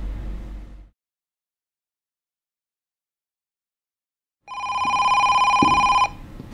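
Telephone ringing: one loud electronic ring with a bright, buzzing harmonic tone that lasts under two seconds, coming after a long silence that follows a brief muffled sound at the start.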